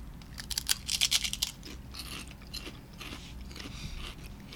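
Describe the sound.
Crunching on Wise potato chips: a burst of quick, crisp crunches early on, then softer, scattered chewing crunches. Quiet overall, with no talk.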